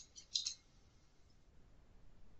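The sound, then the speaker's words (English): Computer mouse clicking on a create button, a short cluster of faint, crisp high ticks early on, followed by quiet low background hiss. “I'm going to go ahead and click on create.”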